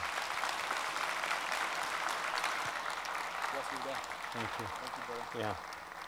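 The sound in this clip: Kearney E-Free church audience applauding to welcome a guest: sustained, dense clapping at an even level, with a voice starting to speak over it toward the end.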